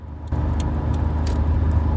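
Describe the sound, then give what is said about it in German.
A car drives along the A9 motorway toward Munich, giving a steady, even road and engine rumble with no talk and no sharp events. “So, wir wechseln jetzt gerade bei einem Autobahn. Na, wir fahren weiter auf der A9.”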